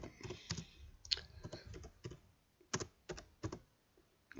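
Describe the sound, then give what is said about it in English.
Typing on a computer keyboard: many quick keystrokes in irregular bursts with short pauses between them, crisp, clattery clicks heard alone with no voices. “So you type one in. I'm going to type in technology blog.”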